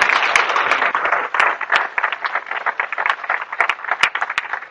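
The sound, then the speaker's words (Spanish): Congregation applause in a church service, loud irregular clapping with many sharp individual claps standing out from the dense patter, rising and dipping in intensity over several seconds. “Now I want to give the Lord a hand for this child. Quiero darle un aplauso al Señor por esta niña.”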